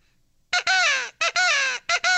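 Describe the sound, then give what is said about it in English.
A blown crow call device imitates a crow's caw with a few loud, raspy, harmonic-rich blasts. The longer blasts slide downward in pitch, and brief gaps separate them. “This is with the crow call itself.”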